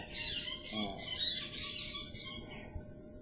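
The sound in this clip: Squabbling doves give high, chirping calls in short overlapping bursts, fairly faint over a low, rumbling background.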